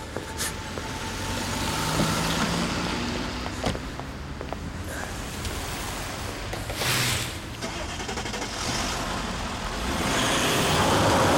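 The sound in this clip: Expensive car driving, with a steady, faint engine and road hum broken by a few brief clicks and thumps, swelling slightly toward the end.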